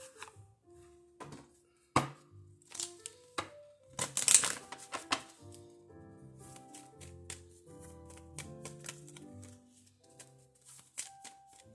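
A deck of healing cards is handled and shuffled: a run of crisp clicks and taps, a denser, louder riffling flurry near the middle, then lighter, scattered card taps.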